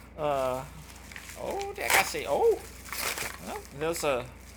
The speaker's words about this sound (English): Y'all, let's open this package here now. Y'all, this is the one that came from Performance Brands. And y'all, let's just see what it is.